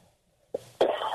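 A person clears the throat with a short cough-like burst followed by a longer, harsher rasp, both loud against an otherwise quiet background with no speech.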